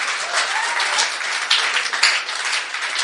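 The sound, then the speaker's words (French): An audience applauding during a sermon: dense, steady clapping that stays loud and continuous throughout. “Est-ce qu'on peut acclamer?”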